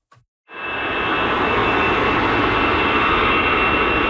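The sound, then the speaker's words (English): A jet aircraft taking off at Paris's biggest airport: after a brief click, its engines swell into a loud, steady roar with a faint high whine that holds to the end. “You'd be forgiven at Paris's biggest airport for not hearing anything over the sound of hundreds of flights taking off”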